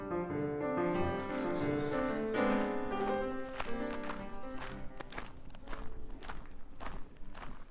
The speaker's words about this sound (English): I'm walking along the White Rim Trail, which is a world-famous four-wheeling trail here in Canyonlands National Park.